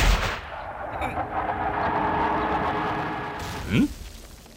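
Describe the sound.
Gunfire aimed at houses below a city wall, heavy like artillery: a sharp blast at the start, then a long rumbling decay that gradually fades, and one brief louder burst near the end. No voices are heard.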